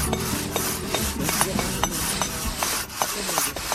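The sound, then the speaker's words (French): Rough rasping scrapes from restoration work at an archaeological site in Gaza, Palestine, repeated in many short strokes over a steady gritty bed, fairly loud and without voices. “Vous entendez gratter”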